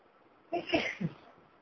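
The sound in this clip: A single short sneeze, fairly faint, bursts out in one quick rush with a brief tail and then fades to quiet.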